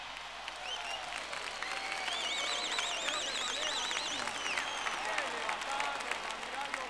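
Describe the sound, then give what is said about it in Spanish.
Sustained crowd applause at a live salsa concert following a trumpet solo, a dense, steady wash of clapping that holds at an even level for the whole stretch. “Un aplauso para Julio Padrón.”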